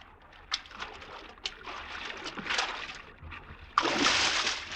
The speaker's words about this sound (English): Not so godlike, our Caesar, when he swims.